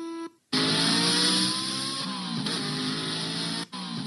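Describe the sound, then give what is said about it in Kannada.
A motorbike ridden very fast roars past in a loud, sustained engine whine whose harmonics waver in pitch. It cuts in abruptly after a brief quiet and drops out briefly near the end. “Shivanna ಎಷ್ಟೇ ಹೇಳಿದ್ರು ರೋಹನ್ ಅವನ ಮಾತನ್ನ ಕೇಳದೆ bike ತಗೊಂಡು ಹೊರಟೇ ಬಿಟ್ಟ. ಹೊಸ ಹುರುಪಿನಲ್ಲಿ ಅತೀ ವೇಗದಲ್ಲಿ ಬೈಕ್ ಚಲಾಯಿಸುತ್ತಿದ್ದ ರೋಹನ್ಗೆ ಗ್ರಹಚಾರ ಕಾದಿತ್ತು.”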